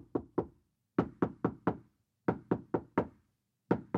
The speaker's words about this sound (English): that's supposedly me knocking on a door.